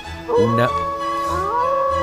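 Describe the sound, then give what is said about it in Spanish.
A wolf howl in the cold under a partial eclipse: one long, tonal, harmonic-rich call that rises sharply at the start, holds steady, then climbs again near the end. “Bajo la penumbra del eclipse parcial, el aullido de Adrián desgarra el frío.”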